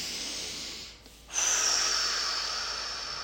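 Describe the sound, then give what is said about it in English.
A single deep breath taken during a calming exercise: a brief hush, then one long, airy, breathy rush that starts abruptly and slowly tapers off over a couple of seconds. “We're going to just take a deep breath.”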